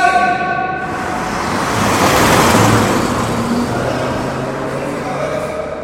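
A car speeds toward a person as a loud, rushing roar of engine and road noise. It swells to a peak midway, then slowly fades.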